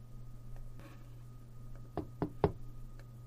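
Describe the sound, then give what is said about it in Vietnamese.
Knocking on a door: three firm knocks in quick succession, the last slightly loudest, over a low steady hum with no voices. “thì tiếng gõ cửa của Diệp Viễn đã liền vang lên”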